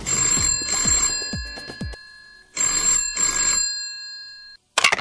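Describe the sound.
Telephone bell ringing for an incoming call: a loud, bright double ring, a pause, then another double ring, with no one talking.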